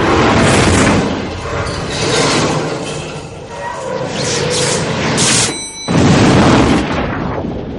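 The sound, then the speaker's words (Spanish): Explosion of a falling elevator from the 1999 science-fiction film The Matrix, its flames bursting into a lobby: a sustained loud roaring rumble that dips briefly near the end, then a sharp, heavy blast. “Abajo el ascensor explota y sus llamas invaden el vestíbulo.”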